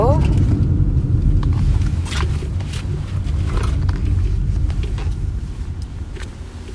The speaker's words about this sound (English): sorry, I'm just waiting for traffic to clear. Give me a sec.